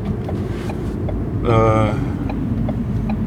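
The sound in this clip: The interior of a car hums with a steady low rumble, captured on a small handheld recorder, with a short tonal swell near the middle and a voice talking over it.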